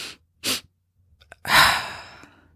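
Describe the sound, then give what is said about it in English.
Breathing exercise: a person takes short, quick inhales, then lets out one long, slow breathy exhale that fades gradually, with near silence between the breaths. “you take one deep breath and then immediately after take another short little breath, fill up your lungs entirely and then let it out slowly.”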